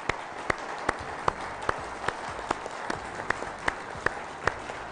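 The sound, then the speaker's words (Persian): An audience applauding guests at the start of a talk show. The clapping is dense and steady, with regular rhythmic accents as if clapped partly in unison. “ما فقط الان برای شروع این گفتگو میتونیم به افتخارشون دست بزنیم”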